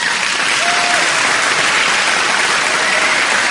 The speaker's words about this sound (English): round of applause for Bogut.